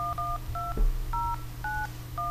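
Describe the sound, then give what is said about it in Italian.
Touch-tone dialing of a telephone number: six short two-note beeps in an uneven rhythm, the first two back to back, over a low steady hum with a dull knock between beeps. “Facciamo partire questa telefonata, okay, va? Okay. Avanti, facciamo questo numero.”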